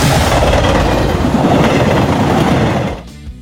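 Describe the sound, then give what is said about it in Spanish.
A loud, continuous rumble of a moving train, with rattling wheels and clattering railway cars, is used as a transition effect between segments. The noise holds steady, then drops away sharply near the end. “vamos al cambio de vagón para explicar y detallar lo que tiene el próximo vagón. En Tren Deportivo, cambiamos de vagón.”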